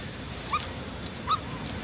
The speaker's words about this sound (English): So you bought a puppy for your kid for Christmas?